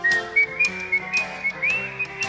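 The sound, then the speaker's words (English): Clear, high-pitched human whistling of a tune, made of short melodic phrases with steady held notes and a few quick upward slides. “Let's whistle.”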